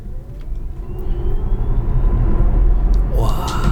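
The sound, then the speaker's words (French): A Tesla electric car accelerating hard all at once: a broad road rumble swells over several seconds, and a high whine sweeps quickly upward near the end. “Donc, c'est le bruit d'une Tesla qui va à fond d'un coup.”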